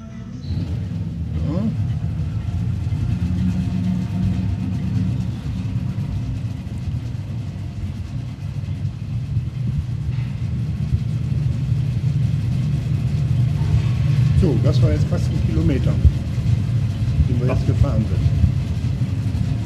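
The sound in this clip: A vehicle drives through a long, empty tunnel in a hospital basement, giving a steady low engine rumble that carries through the whole clip, with brief voices toward the end.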